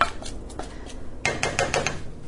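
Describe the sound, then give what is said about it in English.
Lid set on a cooking pot of spinach: a few light, faint clinks, then a quick cluster of metallic clatters and taps as it settles. “All right, putting the lid on, and I'm going to keep that on super low, just enough to cook the spinach.”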